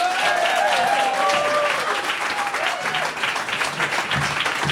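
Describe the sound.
Audience applause welcoming a panel to the stage at a live event: dense, sustained clapping from a crowd that stays loud and steady throughout.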